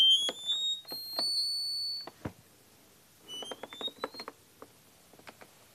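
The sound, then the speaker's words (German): An accordion plays its highest note, a very high C sharp, as a piercing, thin whistle-like tone in two separate passages. Soft clicking key noises run between and after the tones. “Und in der Höhe komme ich tatsächlich bis zum fünfgestrichenen Cis rauf. Das klingt so.”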